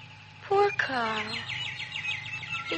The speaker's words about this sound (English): Those birds, I don't like them.